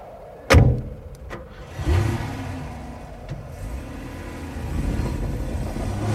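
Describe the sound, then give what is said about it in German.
A vehicle drives out onto ice, its engine a low rumbling drone that swells and holds, preceded by a sharp thud and a couple of clicks. “Vorsichtig aufs Eis fahren!”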